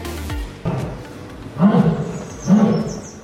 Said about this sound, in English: that's the sound of an excited lion getting ready to open its Christmas presents. Asiatic lions Banu and Arya were given a box of seasonal spices by staff at London Zoo